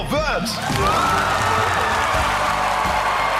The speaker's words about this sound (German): Großer Jubel also. Zum einen über 30.000 Euro Preisgeld. Aber auch einfach, weil Schülerinnen, Schüler und Lehrkräfte stolz auf ihre Schule sind.